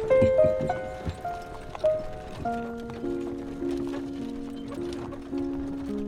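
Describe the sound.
Hoofbeats of a horse pulling a wagon, a few uneven thumps louder at first, under a sustained droning musical score.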